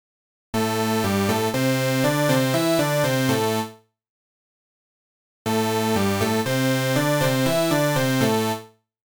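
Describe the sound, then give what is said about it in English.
A synthesizer melody: a bright, harmonic-rich phrase of many quick notes, played twice with a stretch of silence between the two matching passages. “but instead of playing the one chord, I play a melody on the synthesizer like this.”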